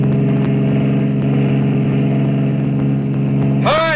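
A car engine drones at a constant loud pitch as it speeds through a police chase, with a brief high squeal cutting in at the very end.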